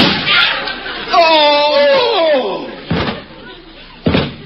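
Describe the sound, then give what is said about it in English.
Two people collapse to the floor in a faint, heard as two heavy thuds about a second apart. Voices and laughter come before and around the impacts. “They're both down. I put blanks in those guns. How did they get shot? Nobody got shot. The photographer dropped the flash bulb and they both fainted.”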